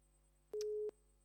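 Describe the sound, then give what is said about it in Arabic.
A phone line's busy tone after a call-in caller is disconnected: one steady, mid-pitched burst of tone, then a second burst begins at the very end, over a faint constant hum. “فصلت المكالمة.”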